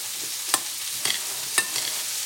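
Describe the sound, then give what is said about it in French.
Stirring of a pea, mint and feta salad, heard as a soft, steady rustling hiss. Three light, sharp clicks of a utensil are spaced evenly through it, with no talking. “Donc je viens remuer cette petite salade pour que tous les goûts se transfèrent dedans.”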